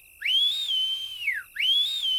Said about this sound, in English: She whistles.